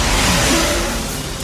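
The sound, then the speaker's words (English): A black van drives up a ramp in a parking lot, giving a loud, continuous rushing engine roar that lasts under two seconds. It stays steady throughout, with no voices. “The black van drives up a ramp.”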